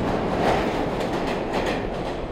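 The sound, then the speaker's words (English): New York City subway train rumbling along the tracks, a loud, steady roar of wheels and carriages with a faint clattering rhythm throughout. “G Moody here live in New York City subway.”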